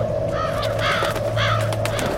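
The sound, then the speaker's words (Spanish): Crows cawing as a sound effect while birds swoop down and attack a baker carrying a basket of bread and pastries on the head, a few harsh caws over a steady low hum. “surgieron muchas aves del cielo y me atacaron. Las aves se comieron todo lo que estaba en la cesta de mi cabeza.”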